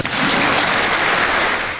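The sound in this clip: An audience breaks into applause, a loud, dense and continuous patter of many hands that holds steady throughout.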